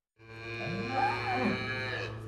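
Cattle moo on a farm at Ardingly, West Sussex, during a drought: one long, low, steady moo of about two seconds that rises sharply from silence and holds at even strength, heard alone.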